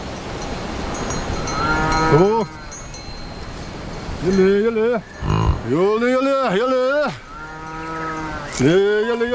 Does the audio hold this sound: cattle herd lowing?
yes

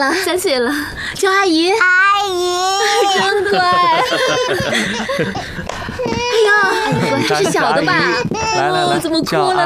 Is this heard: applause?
no

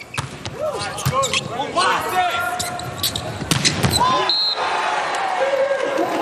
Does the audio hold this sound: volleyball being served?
yes

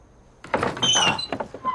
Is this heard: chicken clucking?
no

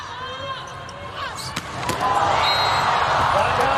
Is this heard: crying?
no

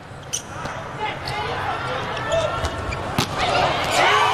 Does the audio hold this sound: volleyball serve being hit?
yes

